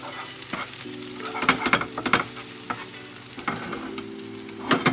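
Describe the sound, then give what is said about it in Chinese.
Eggs sizzle as they are stir-fried in a pan and broken into small pieces until lightly browned. A constant hiss is broken by irregular bursts of scraping and tossing as the spatula works through the egg. “那我们就是要把这个蛋呢，把它。炒碎，然后炒到有一点点微微焦黄就可以了。”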